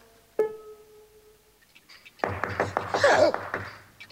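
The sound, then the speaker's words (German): Knocking on a door: after a quiet stretch, a rapid run of many sharp knocks fills the second half, after an earlier single ringing hit. “Da draußen hat jemand gegen die Tür geklopft.”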